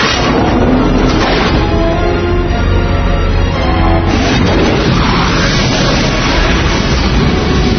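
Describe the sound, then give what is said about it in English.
A missile launch: a loud, sustained roaring blast fills the whole clip without any pause. It swells slightly midway and carries a heavy low rumble throughout. “Birds away. We have visual confirmation of the missile.”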